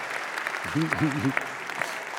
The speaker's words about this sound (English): that would be very appropriate to clap for him, not just one person